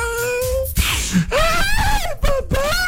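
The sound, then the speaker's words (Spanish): A voice imitates a child crying, wailing and sobbing in several drawn-out moans that waver up and down in pitch, broken by short catches of breath. “así, el niño estaba llorando. Así como lloran los niños. Así como lloran.”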